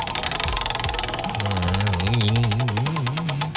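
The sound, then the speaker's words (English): A prize wheel spinning in a game, giving a rapid, regular run of ticking clicks that lasts throughout, joined partway through by a wavering tonal sound. “So let's spin the wheel to see what kind of game”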